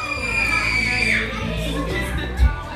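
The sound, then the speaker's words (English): People screaming at a July 4th gathering: a high, sustained cry slides downward in pitch over a noisy bed of voices, and a short, loud thump lands near the end. “What's wrong? Why everybody screaming?”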